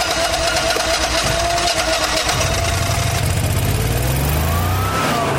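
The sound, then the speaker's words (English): A 10-kilowatt home backup generator runs in a backyard, its engine giving a steady, loud, even drone with a constant rumble throughout and no voices. “And then he shows off his pride and joy, a 10-kilowatt generator.”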